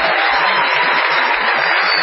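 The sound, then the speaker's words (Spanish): Steady applause from an audience greeting a guest on stage, a dense, even wash of clapping that holds at full loudness for the whole stretch with no voices over it. “Vamos a saludar con una ovación tal que no puedo olvidarla a Patricio Barton.”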